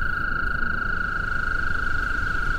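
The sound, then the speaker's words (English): An American toad trills in spring to attract mates. The call is a steady, high-pitched drone that holds unbroken from start to end over a low, hissing background. “the trills of American toads calling to attract mates”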